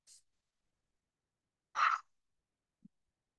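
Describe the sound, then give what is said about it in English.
Breathing exercise of inhaling through the nose and exhaling through the mouth: one clear, breathy rush of an exhale stands out in near silence, with a faint brief hiss before it and a tiny soft sound after. “inhale through your nose, exhale through your mouth.”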